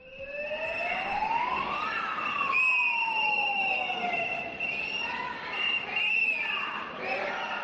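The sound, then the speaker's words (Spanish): Emergency sirens wail through a street protest march of teachers and educators in Bilbao, rising and falling in long sweeps with overlapping tones, while a murmur of voices and crowd noise runs underneath. “Es el sonido de una de las 3 manifestaciones que han tomado los centros de las capitales vascas este mediodía, en concreto la de Bilbao.”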